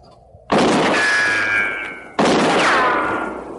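Two gunshots fired from up in a tree in a frontier-era setting, each a sudden loud blast followed by a long, slowly fading ring with a thin whining tone, the second whine sliding downward in pitch.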